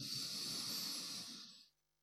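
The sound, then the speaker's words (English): A slow, deep breath drawn in is heard as a soft, airy hiss that lasts under two seconds, then tapers off into silence. “breathing in, and breathing out. One more breath in,”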